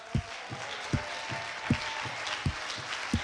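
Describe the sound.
Congregation clapping in a church, sharp hand claps in a steady rhythm, about one strong clap every three quarters of a second with lighter claps between, over a sustained background tone.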